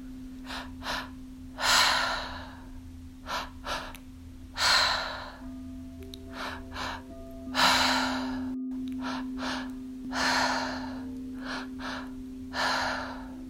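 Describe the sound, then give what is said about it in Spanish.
Mouth breathing in a guided exercise, with a double inhale, one into the stomach and one into the chest, then a release. Two short inhales are followed by a longer, loud exhale in repeated cycles over a faint, steady drone. “Para ello vas a inhalar y exhalar por la boca. Inhalas dos veces, uno hacia el estómago, el otro hacia el pecho y luego sueltas.”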